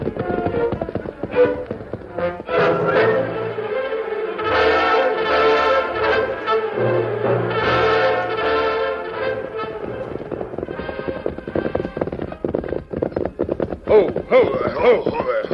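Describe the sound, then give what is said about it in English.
Hoofbeats of a pony galloping away, a rapid, steady clip-clop pounding beneath a dense, busy backdrop of other sound that runs throughout. “the Indian whirled his pony and raced away in the direction of the sound.”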